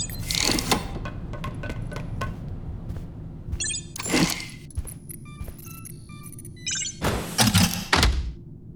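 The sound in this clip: A door being triple-locked, a company-designed lock: three bursts of heavy metallic clunks and clicks, spaced a few seconds apart, with no talk.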